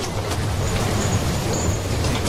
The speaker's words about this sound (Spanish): Primero, a bordo de un renqueante ferrocarril.